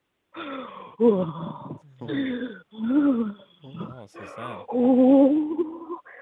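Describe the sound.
A woman breathes heavily in a run of loud, voiced, moaning breaths, one after another in a steady rhythm.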